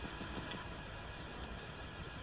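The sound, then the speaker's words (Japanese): Steady low rumble inside a Nozomi Shinkansen super express bound for Hiroshima, a quiet, even cabin drone with a broad hiss above it and no distinct events. “Ladies and gentlemen, welcome to the Shinkansen. This is the Nozomi Super Express bound for Hiroshima”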